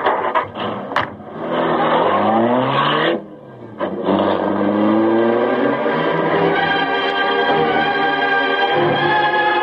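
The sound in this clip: A car engine revving as the vehicle drives off, a loud, steady motor drone with layered harmonics. It briefly drops away, then surges back and keeps running strongly. No voices.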